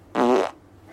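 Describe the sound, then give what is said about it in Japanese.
A single short fart after a carb-free lunch: a loud, buzzy, tonal blast lasting about a third of a second, ending abruptly into near silence. “なんか可愛くないおならですいません臭いです。”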